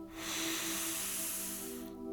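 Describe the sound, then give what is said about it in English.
One long, deep cleansing in-breath, a soft airy hiss that lasts almost two seconds before stopping, with faint steady tones beneath it. “Let's take a nice deep cleansing breath. Nice deep in breath.”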